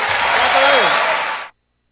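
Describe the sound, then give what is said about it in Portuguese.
Audience applause, a loud, dense, steady wash of clapping that ends abruptly after about a second and a half. “Un fuerte aplauso, Mario Bofill.”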